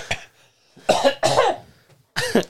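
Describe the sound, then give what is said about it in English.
Harsh coughing from a person: a few loud, chesty coughs in irregular bursts, some coming in quick pairs, with no talking between them. “you coughed like...”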